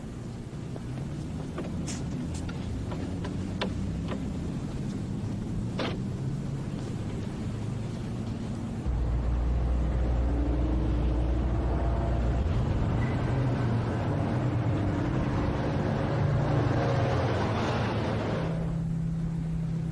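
A car being boarded and driven off: a few light clicks and knocks from someone getting in, then a steady low engine rumble that starts about halfway through and continues to the end, with no talk.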